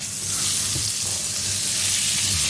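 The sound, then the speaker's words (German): Butter melts and sizzles in a frying pan, giving a steady, fairly quiet hiss with soft crackling and no talk. “jetzt ist die Butter geschmolzen, jetzt kommt wahrscheinlich der Speck rein”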